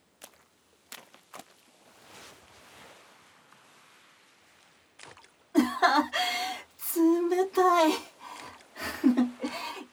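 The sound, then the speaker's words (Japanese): Cold water splashing on a person at the water's edge: a few sharp, scattered splashes over a faint wash of moving water, followed by people talking while louder splashes continue. “ちょっと水かけるのやめ。冷たい。”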